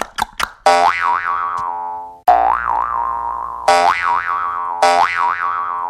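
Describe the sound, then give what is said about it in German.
Cartoon boing effects for someone hopping, played on a jaw harp: a few short clicks, then four twangy, wobbling boings in a row, each ringing out and fading before the next. “Ich hüpf dann mal durchs Studio und du machst den passenden Sound dazu, okay?”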